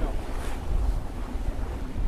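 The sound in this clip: Strong, gusty wind roars around a sailboat at the back edge of a low-pressure system, a dense, steady rushing blast with buffeting on the microphone and no voices.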